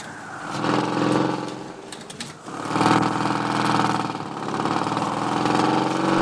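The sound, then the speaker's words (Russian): Motorcycle engine labouring through snow over rough, roadless ground, a steady throbbing drone that swells and eases in loudness throughout, with no voices. “Алексей по снегу, по бездорожью, на мотоцикле едет к дому бабы Глаши.”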